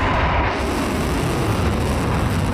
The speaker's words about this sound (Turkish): 2, 1, ateş! Roketsan seri üretimleri devam eden geniş bir balistik füze ürün yelpazesine sahip. O ürünlerden biri kısa menzilli balistik füze Tayfun.